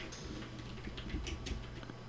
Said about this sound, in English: I'm going to go ahead and type Morton. Fuck you, machine. Sorry, guys. Here, I got to... I'm not used to computers.